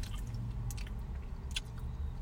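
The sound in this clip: Faint, wet chewing of a light green candy that is either juicy pear or booger flavored. A few soft, squishy bites and clicks sit over a low, steady background.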